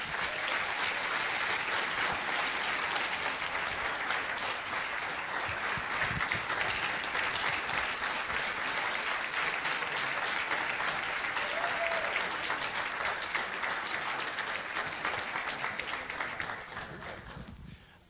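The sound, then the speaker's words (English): Sustained applause from a church audience honouring students, steady dense clapping that holds for well over fifteen seconds before fading out at the end. “So I just want to congratulate you. Amen? Let's give them a big hand.”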